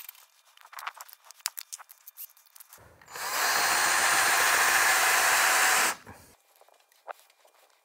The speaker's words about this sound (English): All right, so that's an 8.5 mil hole. And the reason I drilled 8.5 is because it's the tapping size for M10 by 1.5